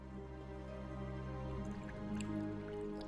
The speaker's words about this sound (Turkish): Sarkıttan düşen damlayı avucunun içinde gezdiriyor.